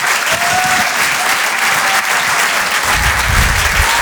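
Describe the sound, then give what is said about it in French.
An audience applauds comedians at a comedy show with steady, loud, dense clapping that fills the whole stretch and holds an even level throughout. “Faites du bruit s'il vous plaît pour Gilles Alma et Ben.”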